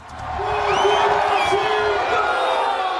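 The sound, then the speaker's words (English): Football fans cheering as Cristiano Ronaldo scores for Portugal in a World Cup blowout of Uzbekistan: a crowd roar that swells within the first second and then holds loud, with whoops and shouting voices rising above it. “Fans erupt in cheers as Cristiano Ronaldo scores in his sixth World Cup tournament as Portugal blows out Uzbekistan.”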